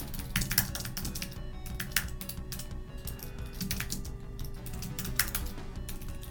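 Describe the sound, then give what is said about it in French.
Quiet keyboard typing as a short message is written: many quick, irregular clicks and taps, some in bursts, over a low steady background hum. “J'envoie un petit message. Ce sera pas long.”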